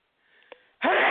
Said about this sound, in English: I sneezed on air.